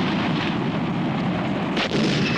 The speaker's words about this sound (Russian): Другой танк стреляет в ответ, попадает в курган.